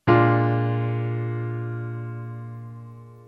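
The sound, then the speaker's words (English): A B flat dominant seventh chord on piano, played as a basic blues voicing, is struck once and then rings out, its full tone fading slowly over a few seconds. “So the B flat dominant 7th chord sounds like this.”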